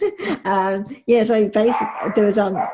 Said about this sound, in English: excuse my dog in the background